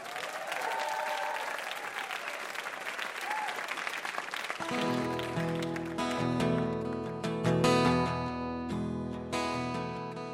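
An audience applauds a performer at a comedy quiz show, with steady dense clapping for about four and a half seconds before music begins and carries on to the end.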